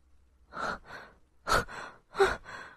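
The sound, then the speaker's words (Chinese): Heavy breathing: a few loud, rasping breaths in and out come in quick pairs, separated by short silent gaps, with no voices. “你的呼吸怎么变重了？”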